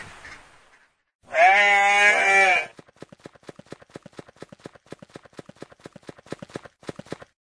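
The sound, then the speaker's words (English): A goat gives one long, wavering bleat, followed by a rapid run of many crisp hoof clip-clops that continues to the end. “Goat.”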